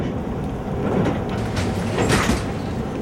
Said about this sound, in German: Ein Koffer nach dem anderen fährt langsam auf dem Gepäckband vorbei. Aber der eigene Koffer taucht einfach nicht auf.